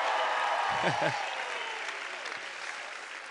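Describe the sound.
Applause and cheering from a church audience at a Wednesday night service, a soft, even wash of clapping with a brief raised voice calling out near the start before the clapping gradually tapers.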